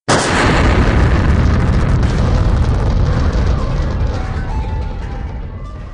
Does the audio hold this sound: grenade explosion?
yes

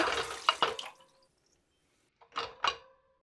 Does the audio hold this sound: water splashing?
yes

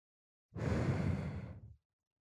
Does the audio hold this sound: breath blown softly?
yes

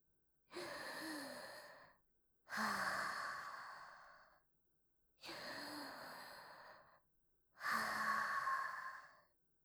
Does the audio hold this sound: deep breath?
yes

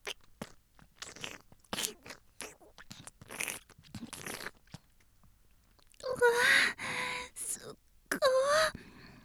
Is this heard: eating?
yes

